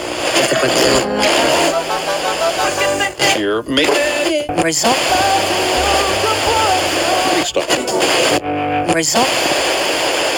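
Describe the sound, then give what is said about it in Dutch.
A loud, steady hiss of static comes from an old radio, with a song partly buried beneath it. Snatches of singing and music break faintly through the noise throughout. “Ik ben op zoek naar de titel en de artiest die nou tussen het geruis in mijn oude radio doorkomt.”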